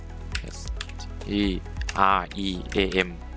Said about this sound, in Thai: พิมพ์คำว่า Streamlab OBS ครับพิมพ์ตามผมเลยนะครับ